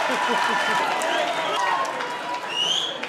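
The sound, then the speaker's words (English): Applause from a comedy show audience greeting the final guest: dense, steady clapping that holds at an even level throughout, with a few whoops rising above it. “Please put your hands together for Mr. Al Foran.”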